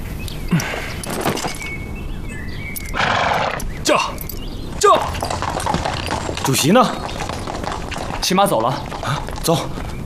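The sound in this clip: A horse neighing with clip-clopping hooves as the chairman rides away on horseback from a village: several whinnies over the hoof beats, and voices calling throughout.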